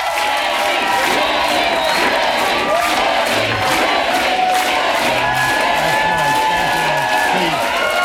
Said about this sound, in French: Par contre, écoutez justement l'ovation du public.